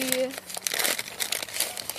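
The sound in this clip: Crinkly packaging, the wrapping of tea, is unwrapped: a continuous dense rustling and crumpling lasting about two seconds, with a brief voice at the start.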